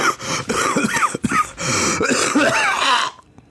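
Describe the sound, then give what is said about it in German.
Loud coughing and throat clearing directly into a microphone, a few harsh, rough bursts packed into about three seconds, ending abruptly. “Stell mir nichts Schönes vor, als einen Podcast zu hören und dann so richtig schön einen ins Ohr gehustet zu bekommen.”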